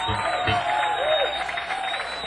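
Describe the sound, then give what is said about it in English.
An audience applauds a band with steady, dense clapping that runs the whole way through, mixed with general crowd noise. “Big round of applause for the band.”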